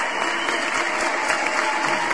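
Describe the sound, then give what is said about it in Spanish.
Dense, steady applause from an audience cheering on a friend at the close of a show, a loud, even wash of many clapping hands that holds at the same level throughout. “ahí van los aplausos.”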